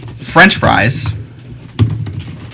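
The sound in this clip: Keys clatter on a computer keyboard in a few quick clicks, following a brief stretch of someone talking.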